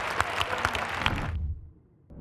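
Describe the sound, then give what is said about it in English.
Congregation clapping at a church service, a dense, fairly faint patter of hand claps that stops abruptly after just over a second, leaving near silence. “Come on, give the Lord a big hand clap.”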